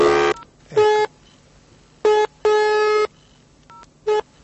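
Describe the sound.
A telephone number is dialed on touch-tone keys, a few clear electronic beeps of varying length at irregular intervals, alone without talk.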